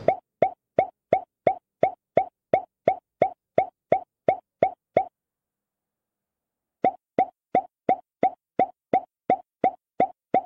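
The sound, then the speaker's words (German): Plopping sounds from a smartphone app: short, sharp, evenly spaced pops repeat steadily in a quick rhythm. A long run of them is followed by a pause of about two seconds, then a second run at the same pace, with no voices. “das ist also immer so ein Ploppen.”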